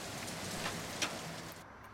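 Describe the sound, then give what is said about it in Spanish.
Rain falling in a soft, steady hiss that stays level throughout, with a couple of slightly brighter drops or splashes standing out briefly; no voices. “Ay, pero cómo llueve y yo que no me traje el paraguas.”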